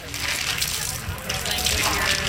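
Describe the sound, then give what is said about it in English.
Running water gushes and splashes as hands are washed after gloves and an apron are removed during protective-gear doffing. The hiss of flowing water is steady throughout, with brief surges of sloshing. “We're going to remove those gloves and wash our hands.”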